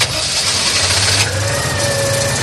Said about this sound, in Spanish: Y el viaje lo hacemos en un coche que es mítico y que seguro que a muchos de vosotros os va a traer un puñado de buenos recuerdos.